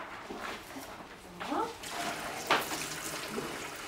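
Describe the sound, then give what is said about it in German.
Faucet water runs quietly while salad is washed in a kitchen, a soft steady splash with a few louder spatters, and people talk over it. “Magst du den Salat waschen? Ja.”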